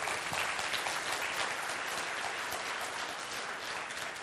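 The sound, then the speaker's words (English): Audience applause during a church service, as an audience cheers a young woman starting a school Bible study; dense, steady clapping of many hands holds at an even level throughout, with no voices standing out. “Give her a good hand.”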